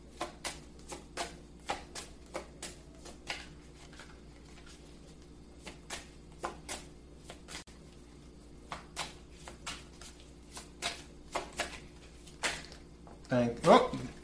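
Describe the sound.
Playing cards dealt one by one from a deck, making many short, crisp snaps at an irregular pace, ending in a quick cluster of louder flicks.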